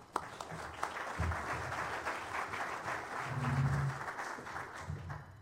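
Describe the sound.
Audience applause welcoming two speakers at a University of Nebraska event, a soft, steady patter of clapping that swells gradually, holds, then tapers off near the end.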